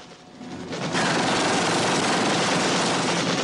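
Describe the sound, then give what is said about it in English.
Gunfire as U.S. soldiers return fire in a combat scene, a loud, sustained rattle of rapid shots that surges in after a quieter opening and keeps going. “The U.S. soldiers return fire.”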